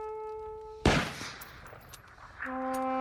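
A firing squad volley rings out as one loud, sharp crack of gunfire with a slowly decaying tail, set between sustained steady tones that sound before and after the shot.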